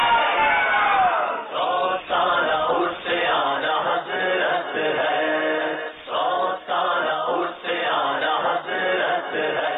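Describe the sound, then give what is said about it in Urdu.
A crowd chanting a religious slogan in unison at a team competition event, loud rhythmic group shouts repeated many times with brief breaks between them. “نعرہ لگائیے فیضان اعلی حضرت”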